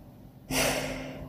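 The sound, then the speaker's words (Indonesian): A hissing, heavy exhale of panting breath starts abruptly after a near-silent moment and carries on as a steady, breathy rush with a faint hum under it. “Dia hanya berdesis sinis dengan napas terengah-engah.”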